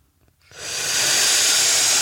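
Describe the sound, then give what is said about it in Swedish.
A long hissing inhale drawn through clenched teeth with parted lips, a cooling sitali breathing exercise. It begins after half a second of quiet, swells, then holds as a steady, bright hiss to the end. “Och så suger man in luften emellan tänderna här. Öppen mun med andra ord, eller öppna läppar.”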